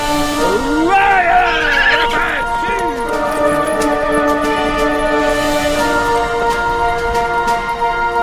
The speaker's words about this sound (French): Don Quichotte se précipita au grand galop de Rocinante